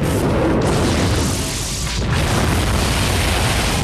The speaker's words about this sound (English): numerous internal explosions start wrecking the whole space liner until it is finally destroyed in one huge big bang